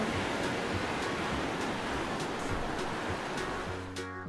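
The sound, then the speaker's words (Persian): Sea waves washing in a steady, loud rush of surf with gentle swells throughout, until a sustained harmonic musical tone enters near the end. “یه آسمون صاف و زیبا میاد، صدای موج دریا”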